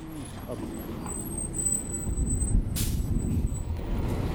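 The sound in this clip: A city bus sits at a stop with its engine rumbling low and steady. A short, sharp burst of air-brake hiss comes past the midpoint, and faint high whines sound above the drone.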